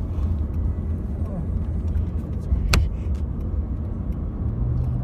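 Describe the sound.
Cars driving through a wildfire in British Columbia make a steady, loud low rumble of engines and road noise, with one brief sharp burst near the middle and voices mixed in underneath.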